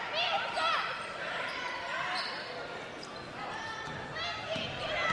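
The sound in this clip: A basketball is dribbled on the court during a women's game, with several quick thumping bounces under an excited voice calling the play over crowd noise.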